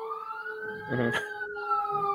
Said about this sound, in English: More emergency vehicles.